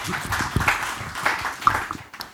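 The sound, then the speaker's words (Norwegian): An audience gives a short round of applause, a dense patter of clapping that thins out and fades toward the end. “En liten klapp.”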